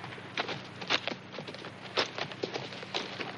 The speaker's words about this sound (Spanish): Barner avanza de pie y Sara y el niño van montados en el caballo.